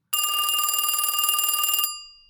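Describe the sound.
An incoming call makes a telephone ring once: a single long, bright electronic trill, high-pitched and loud. It runs for nearly two seconds before cutting off into a short fading tail.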